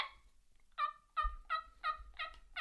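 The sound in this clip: Turkey yelps made on a pot call: a string of short, clear, raspy notes in a steady, even rhythm, fairly loud and alone, with a softer call at the very start.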